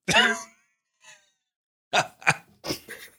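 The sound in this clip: A person's wheeze: first a breathy, strained exhale with a voiced edge, then a faint one, then a quick run of several short, raspy gasps.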